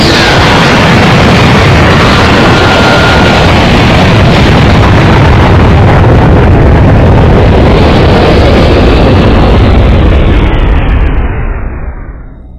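A massive explosion destroying a cruiser, a loud continuous roaring blast that rumbles for about twelve seconds before fading at the end.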